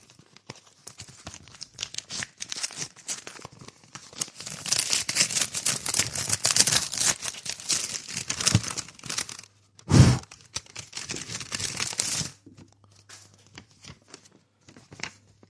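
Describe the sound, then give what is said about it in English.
A paper package is being torn open, with many rapid crinkling, rustling and ripping bursts that come and go over a long stretch. One louder thump sounds partway through before the handling fades to faint rustles. “I couldn't rip it. It wouldn't rip. Let's open the second one.”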